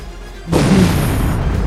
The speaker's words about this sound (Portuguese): aquela explosão do carro da equipe que coincidentemente se chama Death on Arrival parece se misturar com os fogos